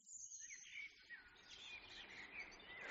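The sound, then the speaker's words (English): Dawn chorus of birdsong with a blackbird and a robin singing: overlapping high chirps, trills and warbling phrases, faint but continuous throughout. “So you can start to hear now the chorus starting up. So I've got blackbird. I've got a robin.”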